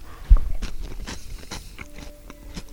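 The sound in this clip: A bite into toast topped with avocado and tomato gives one sharp crunch, followed by a run of smaller crunching and chewing sounds that fade gradually.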